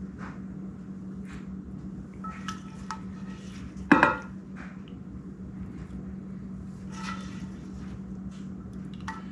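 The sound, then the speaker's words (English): Cajun fried shrimp being added on top of jasmine rice in a pan: faint scraping and soft clatter of utensils against cookware, with one sharp metallic clank partway through over a low steady hum. “Then we're going to take the shrimp, and We're gonna add the shrimp to the top of this.”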